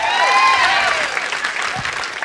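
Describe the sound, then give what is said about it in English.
A comedy club audience applauds for a stand-up comedian. Dense clapping opens with a few high whoops, then eases and thins toward the end. “Give it up for him.”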